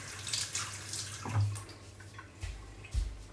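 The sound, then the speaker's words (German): Running tap water as an apple is washed during cooking: a steady, soft watery hiss with a few louder splashes and gurgles as the fruit is moved under the stream. “Dann schnappe ich mir einen Apfel. Äh, dann muss ich den ähm, waschen.”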